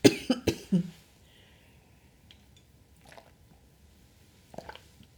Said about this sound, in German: Ich muss mal eben kurz einen Schluck trinken